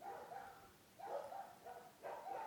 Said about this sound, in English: So, most of those dogs have at least some dingo in them. That's why they howl.